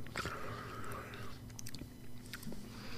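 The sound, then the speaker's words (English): Someone chews a banana pecan snack, with soft wet smacks, small crunches and mouth noises, faint and close, with breathy sounds mixed in. “I worked most of that banana flavor out. Now I'm tasting a lot of pecan, and it's much better.”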